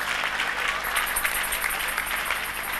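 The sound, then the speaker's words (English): Audience members at a talk about fasting clap for themselves: a thick, continuous patter of many hands at a fairly constant level, with no words spoken over it. “Give yourself a clap.”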